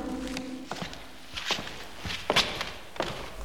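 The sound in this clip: Footsteps walking closer to a painting, a few slow, evenly spaced dull steps on a hard floor, fairly quiet and unaccompanied by voices.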